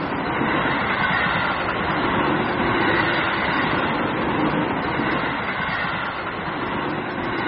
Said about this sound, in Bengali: আমাদের প্যাসেঞ্জার ট্রেনটা যেন এই অখাদ্য স্টেশনটাকে তাচ্ছিল্য করে আমরা নামতে না নামতেই ছেড়ে দিল।